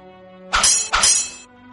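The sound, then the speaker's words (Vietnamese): Metal swords clashing in a fight: two sharp, bright clangs in quick succession, the second ringing briefly before fading, over a faint steady background tone. “Tiếng kim thiết va chạm thật ghê người.”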